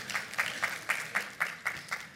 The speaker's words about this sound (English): Some applause? Yeah, thanks.